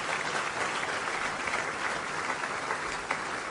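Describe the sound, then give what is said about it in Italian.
Sustained applause from the audience at a political party event: a dense, even wash of many hands clapping with no breaks, holding steady throughout with one small surge near the end. “credo che dobbiamo farci e farvi dirvi grazie e farci un grande applauso”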